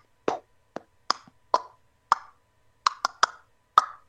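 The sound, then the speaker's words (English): A voice imitates a plastic action figure falling: about nine short, hollow mouth pops and clicks in an uneven rhythm, bunched more tightly toward the end, with no other sound. “It sounds like one of my action figures fell. And I don't notice anything has fallen, but I just hear like a.”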